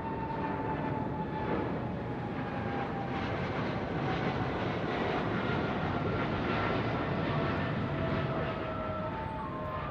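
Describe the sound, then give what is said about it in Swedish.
An airliner takes off with a broad, steady engine roar and faint whining tones layered in. The sound holds at an even, heavy level throughout. “efter säkerhetsgenomgången klockan 18.25 lyfter flygplanet, som också kallas Clipper Made of the Seas, och påbörjar sin färd över Atlanten mot Detroit via New York.”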